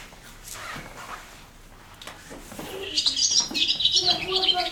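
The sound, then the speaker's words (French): A recording of swallow song plays back, bursting into rapid, high-pitched twittering chirps partway through that continue to the end, after quieter sounds and faint voices earlier. “Mais vous pouvez l'écouter. L'hirondelle, allez. Et ben, du coup, elle est sur celle-là, je vous la fais écouter.”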